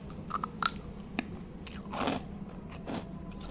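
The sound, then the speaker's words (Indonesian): Crisp crunches of snack chips being bitten and chewed after a rice meal, several sharp, irregular bites and crackles scattered over a soft background hiss. “ciki-ciki yang aku beli tiga hari yang lalu belum aku makan-makan kan selesai makan nasi tadi aku makan ciki-ciki”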